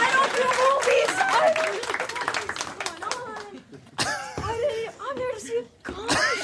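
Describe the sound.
An audience applauds, a dense wash of clapping with cheers and voices rising over it, sustained with brief dips throughout.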